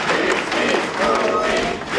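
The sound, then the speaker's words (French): A crowd at a street march applauds a family with dense, steady clapping that fills the whole clip. Voices are faintly mixed in. “La famille de Louis s'avance en tête du cortège sous les applaudissements.”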